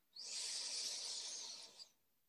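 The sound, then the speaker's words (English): A long, deep inhale through the nose during a guided belly-breathing exercise: a soft, steady airy hiss that runs smoothly for about two seconds, with no talk over it. “As deep into the belly as you can. And inhaling through the nose.”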